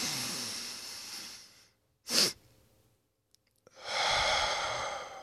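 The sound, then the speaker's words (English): A slow, deep breath drawn in through the nose and later released through the mouth as a calm stress-relief exercise, both airy hisses, with a short sharp puff in the quiet gap between them. “So in through your nose, out through your mouth. It looks a little bit like this.”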